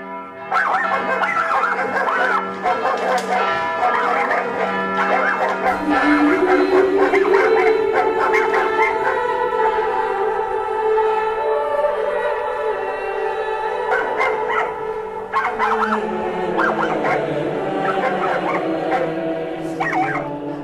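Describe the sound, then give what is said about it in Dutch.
Several dogs bark, yip and howl inside a church during a mass. Their high, whining voices form a continuous, loud, dense tangle that lasts the whole stretch. “Het mooie is dat als die mis er is, terwijl hij daar dus gewoon zijn sacrale dingen aan het doen is, dat die honden daar aan het blaffen zijn.”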